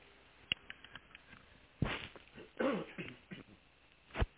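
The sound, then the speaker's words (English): Throat clearing from a dry throat, a few quiet, rough, raspy bursts separated by short pauses, with faint rustling between them. “I'm sorry, I had a dry throat.”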